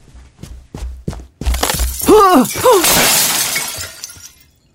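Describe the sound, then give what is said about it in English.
A light fixture falls and breaks: a few heavy knocks, then a loud shattering crash of breaking glass with scattering debris that gradually tails off. “That light thing would have landed right on my head.”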